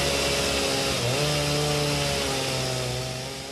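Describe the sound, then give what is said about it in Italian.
A chainsaw engine runs in a loud, steady drone. Its pitch steps up about a second in, then holds, and the sound eases off slightly at the end. “Così sente quanto è grazioso avere il dente della sega di motore che ti fende le ginocchia.”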